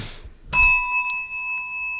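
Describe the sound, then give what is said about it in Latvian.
A small bell is struck once, giving a bright, clear ring that lingers and slowly fades, after a moment of faint rustling. “Uzsit zvaniņu.”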